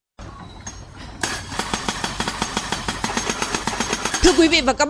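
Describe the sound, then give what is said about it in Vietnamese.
A compactor thumps alongside mechanised equipment at a road construction site on Hanoi's Ring Road 2.5. Loud, rapid, evenly spaced pounding rides over a steady engine drone, and a man speaks over the din at the start and end. “âm thanh quý vị đang nghe là tiếng máy đầm cùng với các thiết bị cơ giới đang thi công tại công trường Vành Đai 2,5 ngay phía sau tôi đây, thuộc khu vực phường Xuân Đỉnh”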